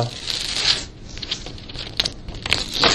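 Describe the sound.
Backing being peeled off a folded paper sheet: a steady, rough crackling rasp with a few sharper ripping bursts scattered through it, fairly loud and alone.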